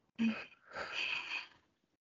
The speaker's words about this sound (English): Okay, we can take a deep breath in and a deep breath out.